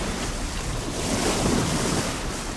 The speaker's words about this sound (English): Can you feel her? Hear her? The ship.